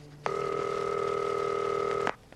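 A telephone ringing before being answered: one steady, buzzing tone that starts and stops cleanly and lasts nearly two seconds against a faint background.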